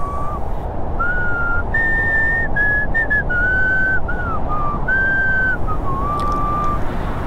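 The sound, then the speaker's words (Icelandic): Whistling of a broken, halting rendition of a Russian folk tune on half-dark winter streets: clear melodic notes in short phrases with gaps, over a steady, even background hiss. “Og einhver staðar á hálfdimmum götunum var hugrökk sál á ferð og flautaði slitrótta útgáfu af viðkunnu rússnesku þjóðlagi.”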